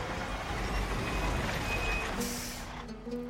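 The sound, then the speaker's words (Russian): Reversing beeps sound from a semi-trailer truck backing up on a road, a faint steady alarm over a low engine rumble. “Водитель дает задний ход.”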